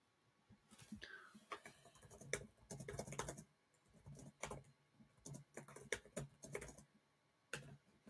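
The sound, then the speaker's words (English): Typing on a computer keyboard: quiet clusters of quick keystrokes tapped out in uneven bursts, separated by short pauses. “Let me type something in”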